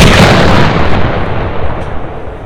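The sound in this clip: A tank cannon firing: a very loud, heavy boom that trails off into a long, deep rumbling decay, with no other sounds.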